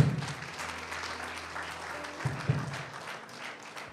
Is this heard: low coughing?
no

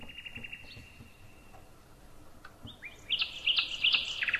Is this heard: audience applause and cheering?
no

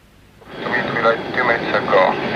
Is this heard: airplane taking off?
yes

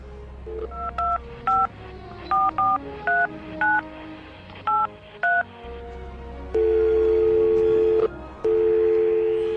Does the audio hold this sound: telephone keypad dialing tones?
yes

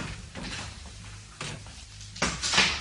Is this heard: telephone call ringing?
no

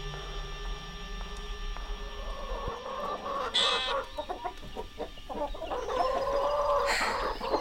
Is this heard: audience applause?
no

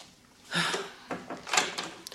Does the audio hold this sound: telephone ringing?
no

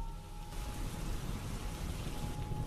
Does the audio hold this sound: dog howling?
no

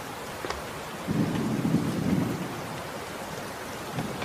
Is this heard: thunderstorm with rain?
yes

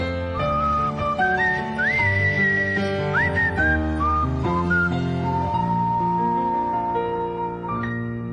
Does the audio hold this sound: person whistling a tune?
yes

